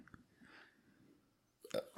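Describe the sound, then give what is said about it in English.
A burp let out right into a microphone erupts loud and brief near the end, after a quiet stretch of faint, low mouth and throat noises. “We had a burp right in the mic.”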